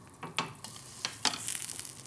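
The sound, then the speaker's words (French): Sizzling of two steaks frying in butter with pepper: a soft, steady crackle with a few sharper pops scattered through it, fairly faint, no voices. “Je leur fais cuire les deux steaks. Je mets du beurre et du poivre sur les deux steaks.”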